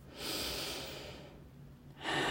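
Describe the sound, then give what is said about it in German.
A deep breath drawn slowly in through the airways, a short pause, then the breath pushed back out. Soft, airy and alone. “Spür den Atem, wie er deinen ganzen Brustkorb weitet und wieder senkt. Noch einen Atemzug.”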